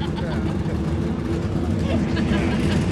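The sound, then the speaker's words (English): Loud race car engines roar at a race track during practice with a large field of cars, a continuous dense rumble and drone that never lets up, with voices talking over it. “We have loud race cars in the background again.”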